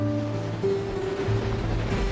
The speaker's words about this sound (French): Tout ce que la mer a à offrir, ce sont ces grosses bourrasques.